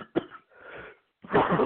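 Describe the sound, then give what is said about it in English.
A cluster of coughs: a sharp first hit, then two longer, rougher throaty bursts, the last one the loudest, with no talking. “Oh, man, I coughed all in your ears.”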